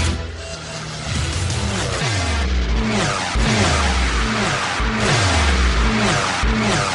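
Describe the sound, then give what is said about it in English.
A contest sounder jingle from a car-racing segment, with a car engine revving repeatedly in rising and falling sweeps over a loud, dense musical bed that runs continuously throughout. “when you hear this Red Bull sounder”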